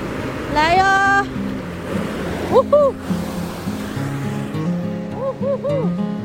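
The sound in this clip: Ocean waves rush onto the sand at Xialiao beach in Jinshan, making a continuous rolling wash with surges, while brief voiced sounds rise above the surf at a few points.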